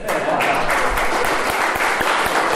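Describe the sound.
Church audience clapping, a full, steady burst of many hands with a few sharper individual claps standing out now and then, loud and sustained throughout.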